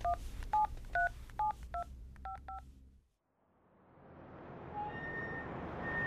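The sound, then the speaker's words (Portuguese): Telephone keypad tones as a number is dialled to call a doctor: a quick run of several short, clear dual-tone beeps in an uneven rhythm, then a brief silence and a swelling, steady hiss. “Deixa-me ligar ao meu médico, o Dr. Zito.”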